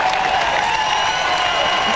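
Crowd applause at an Australian rules football match after a Hawks goal, a steady, even wash of clapping and cheering.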